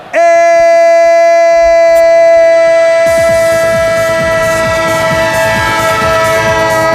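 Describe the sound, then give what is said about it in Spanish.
A train sound effect: a loud, sustained train horn rings out on one steady tone, and partway through a rhythmic clatter of wheels on rails joins beneath it. “Estadio, el tren de Onda Cero que sigue surcando inauguralmente esta jornada y esta temporada.”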